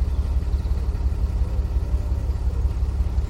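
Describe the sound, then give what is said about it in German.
A ship's engine rumbles steadily while the boat docks in a harbour, a continuous deep low drone with a faint whirring hum above it and no voices. “So, Hannah, jetzt werden wir mit dem Schiff im Hafen anlegen.”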